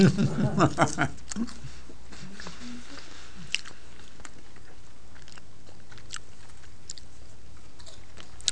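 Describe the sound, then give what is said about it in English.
Crunchy bites and chewing of peppers dressed in olive oil, with a quick cluster of loud bites at the start. Quieter chewing and occasional faint mouth clicks follow. “I didn't taste much olive oil there. I'm going to get a lot on. This just makes the peppers greasy.”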